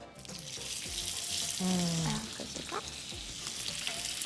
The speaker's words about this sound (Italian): Allora, puoi iniziare a mettere questi, okay, in padella, perché l'olio è già caldo. Quindi ormai sei passata ai fornelli.